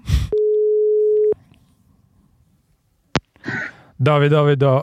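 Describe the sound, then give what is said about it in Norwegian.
A telephone line tone sounds while someone places a call: one steady mid-pitched tone lasting about a second, followed by silence, a sharp click, and then voices talking. “Vi får se. Vi får ringe til han nå og se.”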